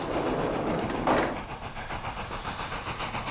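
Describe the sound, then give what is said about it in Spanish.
A train passes along the rails with a steady rumble and hiss and a rhythmic clickety-clack, loud throughout with a brief swell early on. “Hoy, como podéis escuchar ruido de fondo, nos llegan a la isla los trenes del rock and roll”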